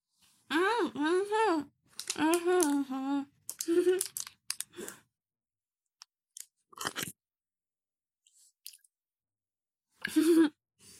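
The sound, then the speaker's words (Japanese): Chocolate from a variety pack, without almonds, is chewed in a few soft, crisp clicks and smacks after a voice makes short vocal sounds. “やばい、ただ。チョコレート食べてるだけになって。”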